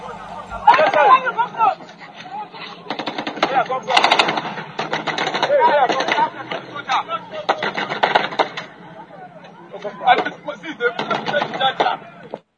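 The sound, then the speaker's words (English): Automatic gunfire rattles in repeated bursts during a battle between the Nigerian army and Boko Haram fighters, with rapid shots alternating with short pauses and voices underneath. “That was a gun battle between the Nigerian army and the notorious Boko Haram terrorists.”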